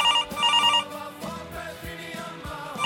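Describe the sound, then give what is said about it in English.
A telephone line sounds after a number is dialed: quick pulsing bursts of high electronic ringing at the start and again at the very end, with a lower buzzing tone pattern between. “I must have dialed the wrong number. I don't know what that was. I'll try that again.”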